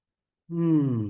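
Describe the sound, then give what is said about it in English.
A single voiced exhale, deep and sigh-like, taken as part of a guided breathing moment. It swells quickly and holds for under a second, sinking slightly in pitch, heard alone with no talk. “Deep breath and exhale.”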